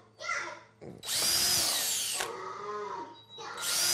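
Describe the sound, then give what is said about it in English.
Power drill boring holes in a workshop aboard a tour bus, heard as a few loud bursts of high-pitched whirring, the longest lasting about two seconds, with short pauses between. “All right, so I've drilled. Have I drilled all the holes? Missing one here.”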